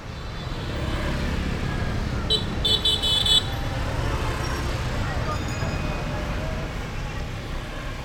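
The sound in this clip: Street traffic in Hanoi with car horns: a steady wash of engine and road rumble, with a few short, high horn toots near the middle.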